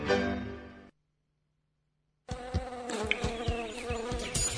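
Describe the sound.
A buzzing mosquito gives a steady, loud, rough drone that starts abruptly after a short silence and continues to the end.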